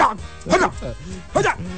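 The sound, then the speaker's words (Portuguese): A human voice imitates a Japanese dog barking, giving a couple of short, loud yelping bursts separated by brief pauses. “Como que late um cachorro japonês?”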